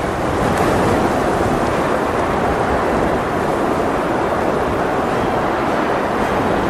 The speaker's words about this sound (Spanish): Queridos oyentes, desgraciadamente nos hemos visto envueltos en la gran tormenta de Júpiter.